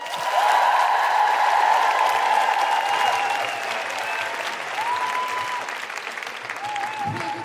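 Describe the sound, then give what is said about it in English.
Audience clapping for a performer at a live feminist comedy show, sustained applause that eases slightly midway, with scattered whoops from the crowd. “put your hands together and make extraordinary guilty feminist high-fiving sounds for the phenomenal Kima Bob!”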